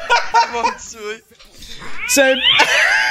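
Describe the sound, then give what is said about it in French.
A cat meow sound effect plays when someone subscribes: a few loud, whining, drawn-out meows with wavering pitch, mixed with a voice. “C'est un bruit de chat à chaque fois que quelqu'un s'abonne.”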